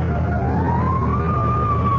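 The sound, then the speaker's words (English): A fire engine siren sounds as one slow wail that rises in pitch and then holds high and steady, clear above a constant low rumble. “Fire engine?”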